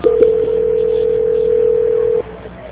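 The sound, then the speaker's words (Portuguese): A steady, single-pitched telephone tone plays while a call is being transferred. It holds evenly for about two seconds, then cuts off, with a narrow, phone-line quality. “Só um minuto, por favor, que eu vou transferir a ligação.”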